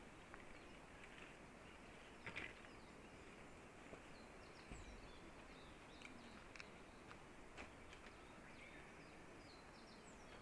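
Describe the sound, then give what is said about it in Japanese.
Faint birdsong of a Japanese bush warbler and a more distant blue-and-white flycatcher: scattered short, high calls over a steady background hiss. “ウグイスの声が、ちょっと遠くで聞こえると、遠くで、オルリっていう鳥の声が、しています。”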